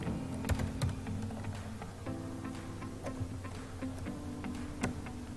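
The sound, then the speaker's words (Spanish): Computer keyboard typing as the word 'Word' is entered into a search box, a short burst of crisp key clicks in an uneven rhythm over a steady low electrical hum. “Voy a buscar el programa de Word, busco el icono de Word, si no lo tengo, lo voy a buscar. Escribo Word.”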